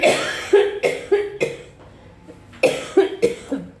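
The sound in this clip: Dry coughing from a parched throat, two bursts of several sharp, rough coughs each, separated by a brief pause, loud and with no talk.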